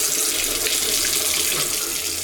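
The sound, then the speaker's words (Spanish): Water runs steadily from an open tap, a continuous bright hissing splash that stays loud and even throughout, with no pauses and no voices. “Si no cerras la llave mientras lavas dos platos o te cepillas los dientes, estás desperdiciando el agua que se tomarían 44 personas en un solo día.”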